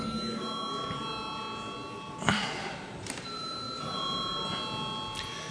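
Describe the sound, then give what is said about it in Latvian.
A parliament bell rings to summon members to a vote. It gives fairly faint, sustained ringing tones that pause briefly, with a short knock partway through, then resume. “Un tāpēc lūdzu zvanu.”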